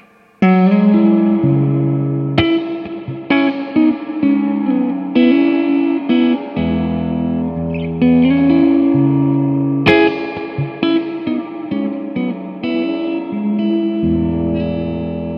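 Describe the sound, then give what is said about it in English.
An overdrive distortion effect on a musical passage: loud, gritty, saturated chords and notes with a harsh, industrial edge. The notes shift every second or two and sustain with an echoey tail, with no voices. “This one is going to be overdrive or overdriven, whichever one you prefer.”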